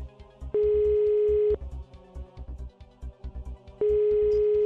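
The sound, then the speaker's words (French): Telephone ringback tone as an outgoing call is placed: two long, steady, mid-pitched beeps, the second cut off at the end, over a rhythmic music bed with a thumping bass beat. “On appelle Tom jazz”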